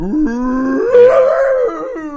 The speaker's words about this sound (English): when I was at the vet, there was a husky coming out of anesthesia. Oh, wow. Making the craziest noises.